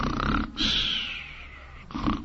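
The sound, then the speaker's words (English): A voice imitates snoring, as someone pretending to sleep on a flower bed. A rough, snorting inhale leads into a long whistling exhale, and a second snort follows. “and so he pretends to sleep by snoring.”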